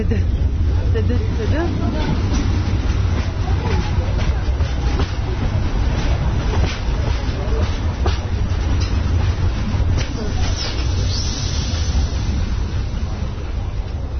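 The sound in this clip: A train running on rails through tunnels makes a loud, continuous low rumble, broken by scattered clattering bursts and hissing surges of noise that swell and fade as it moves.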